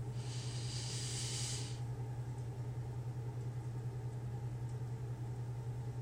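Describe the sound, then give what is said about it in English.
A deep inhale during a guided breathing exercise: an airy hiss lasting under two seconds, which then falls away over a steady low hum that continues throughout. “We are going to inhale, exhale four times. So let's close our eyes and get started. Inhale.”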